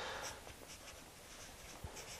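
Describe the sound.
Faint scratchy strokes of writing by hand, a soft irregular rasp that continues quietly throughout with no voices.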